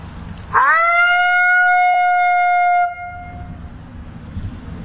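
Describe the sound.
A person imitates a female lonesome howl with the voice: one soft, high, drawn-out tone that lifts quickly at the start, holds steady for about two seconds, then fades.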